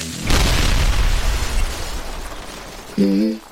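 Explosion sound effect: a sudden loud boom with a long rumbling, hissing decay that fades over a few seconds, followed by a brief tonal sound.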